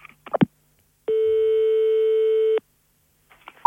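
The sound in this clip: A telephone ringing tone on a call to the police: one steady, mid-pitched tone lasting about a second and a half. A few short clicks come before it, and another tone begins right at the end.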